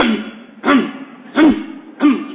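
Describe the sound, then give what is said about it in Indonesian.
Coughing in a mosque during evening prayers: three sharp, evenly spaced coughs, each a short loud burst above a steady low hum. “Kok batuknya jadi nular ini, masjid ini.”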